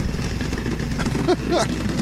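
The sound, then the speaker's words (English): A drum roll sound effect rumbles as a fast, dense roll that holds steady and fairly loud for about two seconds, with a voice briefly cutting in near the end. “the most appropriate drum roll for this”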